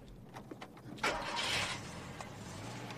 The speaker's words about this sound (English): She climbs in, starts it up, and throws it into reverse.